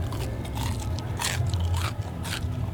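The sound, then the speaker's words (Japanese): Biting into Japanese fried chicken karaage from a food stall: a few crisp, crunchy bites and chewing sounds stand out over a steady, low rumbling background noise. “新野屋さんの唐揚げをいただきたいと思います。うん、うまい。”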